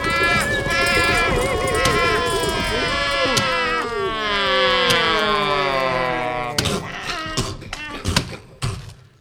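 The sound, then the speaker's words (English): A cattle herd stampedes toward a cliff: many wavering, overlapping bellows blend into a loud continuous din. Near the end come a series of heavy thuds and crashes. “a stampede! Oh, no! There they go! Turn them, boys! Turn them, boys! They're heading for the cliff!”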